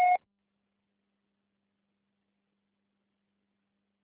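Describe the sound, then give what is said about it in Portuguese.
A single short voicemail beep right after the recorded greeting: one brief, steady electronic tone that cuts off quickly into silence. “Sua chamada está sendo encaminhada para a caixa postal e estará sujeita à cobrança após o sinal. Deixe seu recado.”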